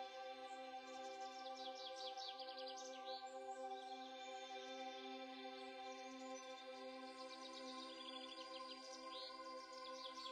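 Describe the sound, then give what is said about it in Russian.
Many kinds of birds sing in a forest, with soft wind in the treetops: faint, scattered high chirps and trills repeat over a continuous low background drone. “Это пение самых разнообразных птиц и мягкий шепот ветра в кронах деревьев.”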